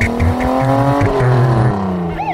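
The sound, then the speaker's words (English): A car driving off on the way to a dentist's office, its engine rising steadily in pitch as it accelerates, loud and continuous, with a brief higher squeal near the end. “He drove himself to the dentist's office.”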